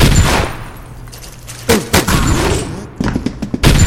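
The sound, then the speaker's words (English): Rocket fire in a video game: a few loud, sharp booming blasts with rumbling in between, heavy and punchy in the low end. “Whoa, it's a rocket.”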